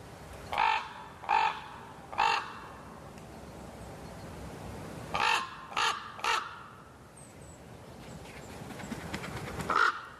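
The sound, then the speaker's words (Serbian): Harsh, croaking caws of a thick-billed raven, the largest songbird, come in two groups of three calls followed by one last call near the end, over a low rumbling background. “Debelokljuni gavran, dugačak oko 65 cm i težak 1,5 kg, najkrupnija je ptica pevačica, a hrani se svime od stočne balege preko larvi tvrdokrilaca do mesa.”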